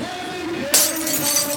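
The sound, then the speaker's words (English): A car windshield cracks and breaks: after a quiet, steady lead-in, a sudden sharp burst of glass noise erupts, followed by a bright, crackling, shattering tail that persists to the end. “Oh, what the heck? Cracked windshield? Don't wait.”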